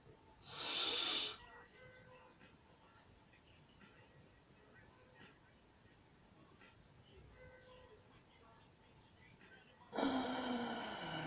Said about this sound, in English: join me as we take some few deep breaths right now